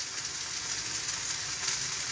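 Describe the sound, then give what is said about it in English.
A steak sizzles as it cooks. Its soft, steady crackling hiss runs the whole time without a break. “I'm going to give that another 30 seconds or so, and then I'm going to flip the steak and see where we're going.”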